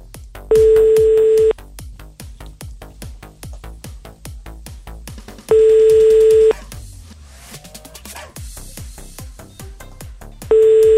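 Ringback tones from an outgoing phone call: three steady one-second tones spaced about five seconds apart. Between them runs a constant rhythmic clicking beat.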